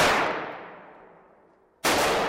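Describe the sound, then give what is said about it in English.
Two loud, sharp gunshots from a gun store's shooting range in East Dundee, Illinois: the first crack rings out with a long fading tail, and the second strikes abruptly near the end. “Those shots you hear are being fired in a shooting range operated by Gat Guns in East Dundee”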